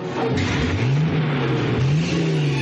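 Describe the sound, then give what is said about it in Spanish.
A motorboat engine runs in a 1961 World War II adventure film scene, a loud, steady droning rumble whose pitch swells and dips a couple of times. “María pone en marcha la motora.”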